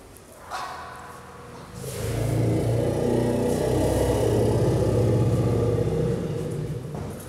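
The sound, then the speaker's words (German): A tracked vehicle drives into a living room with a low engine rumble. After a quiet start it swells in and holds as a steady, throbbing drone for several seconds, with no voices. “wenn einem ein Kettenfahrzeug ins Wohnzimmer fährt, bleibt doch keiner ruhig. Ja klar, für die ist das jetzt eine Aufregung, weil das Gerät jetzt da reinkommt”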